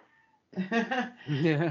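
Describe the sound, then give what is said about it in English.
A house cat wanting to be let out meows loudly twice, with drawn-out, wavering cries in a short burst after a brief quiet moment. “Hang on. My cat wants to get out.”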